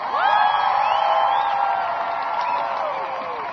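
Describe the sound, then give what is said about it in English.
A crowd of striking protesters in Australia cheers in a sustained roar, with whoops and rising and falling shouts over a steady wash of many voices. “The nationwide in Australia, there are 100,000 strikers! massive this crowd is, everyone!”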